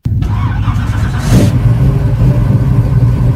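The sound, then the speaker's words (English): A 1968 Pontiac Firebird engine starts abruptly in a shopping center parking lot, surges in a loud rev about a second later, then settles into a steady, deep rumbling idle. “That's the sound of Brian Gerstel's bright red 1968 Pontiac Firebird starting up here at a shopping center parking lot in Burtonsville”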